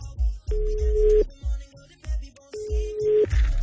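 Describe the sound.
A telephone line tone sounds twice, each a steady mid-pitched note lasting under a second, over a rhythmic, thumping low beat.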